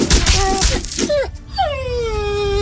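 Wolves in a video game mountain level give short whining yelps, then a longer drawn-out howl that slides down in pitch.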